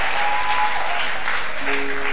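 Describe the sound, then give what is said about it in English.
Congregation clapping during a church service after the announcement of a baby boy's birth: dense, steady applause fills the whole stretch at an even, loud level, with a faint sustained tone running beneath. “May men clap for you the way you are clapping now.”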